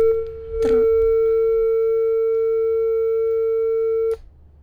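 A steady electronic telephone tone sounds after a call-in caller is disconnected. It begins and ends with a click and holds an unbroken mid-pitched drone with a fainter higher overtone for several seconds, with no voices over it.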